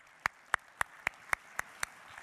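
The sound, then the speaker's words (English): Seven sharp, evenly spaced hand claps in a steady rhythm after a performer finishes, each clap crisp and bright with brief quiet gaps between them. “All right, give him a round of applause.”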